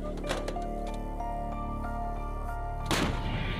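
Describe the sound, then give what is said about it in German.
Gunfire from US soldiers shooting at the Iraqi city of Mosul: a few sharp bursts, one early and a heavier one near the end, over a steady droning hum. “Diese US-Soldaten schießen auf die irakische Stadt Mosul.”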